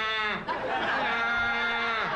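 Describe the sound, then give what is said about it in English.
A man imitates a donkey's bray in a comedy routine, a drawn-out, strained vocal honk with wavering, buzzy pitch. “I thought I saw a donkey in my bedroom. And I'm waking up the wife because I didn't know if it was reality. And it's looking at me going,”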